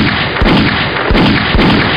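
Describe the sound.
Cannon shots in Super Mario Odyssey, fired at a mechanical centipede boss: a few dull, deep thumps punch through a steady, dense wash of game sound.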